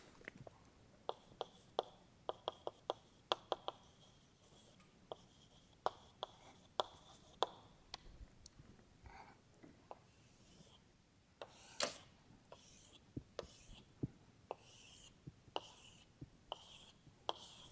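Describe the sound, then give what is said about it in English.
Marker or chalk writes on a board during a physics lecture, heard as faint scratchy strokes and many sharp taps in irregular bursts over quiet room tone. “Yeah, so I just write down SSB, so this means spontaneous symmetry breaking.”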